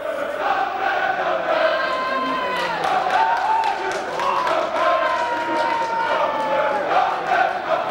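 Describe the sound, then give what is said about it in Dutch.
Feyenoord supporters in a stadium chant loudly and in unison against the club's board. The dense, sustained roar of many voices carries a sung melodic line and runs unbroken throughout. “Terwijl er enorm gescandeerd wordt naar het bestuur van Feyenoord. Nou, luister maar, dat is wat ze zingen.”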